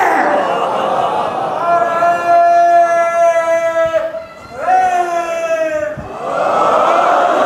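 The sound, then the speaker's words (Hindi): Audience member at a religious gathering shouting a slogan in long, drawn-out calls, loud and strained, with a short break between two shouted phrases and background crowd noise throughout. “क्या नारा लगाया भाई, समझ में तो आया नहीं किसी?”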